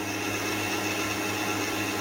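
An electric mixer beats cake batter while ingredients are poured in slowly. Its motor gives a steady, even whir at constant loudness throughout.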